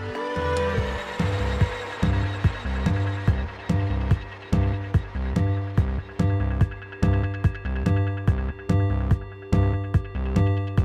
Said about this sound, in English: After going through your internal checklist, get ready to start milling.